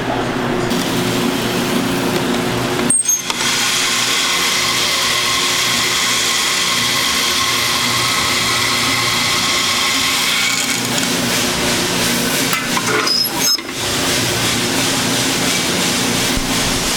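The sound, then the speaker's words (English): Brazilian coffee beans tumble in a spinning roaster drum, making a steady, continuous rushing rattle. The level stays even throughout, with two brief dips in the noise. “You can hear the beans turning as the drum spins.”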